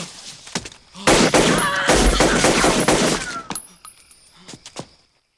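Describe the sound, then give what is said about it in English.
Gunshots are fired into the air to break up a fight. A loud, rapid volley of overlapping shots is followed by a few scattered, weaker reports that trail off. “Frank fires a few shots in the air.”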